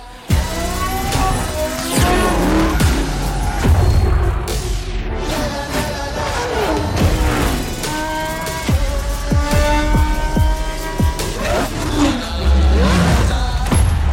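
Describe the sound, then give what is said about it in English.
Racing cars skid and rev in a motorsport racing video game launch trailer, with loud, continuous engine roars and tire screeches throughout. “gear up for the latest beautiful installment of the Forza Motorsport racing franchise with the official launch trailer for Forza Motorsport 7”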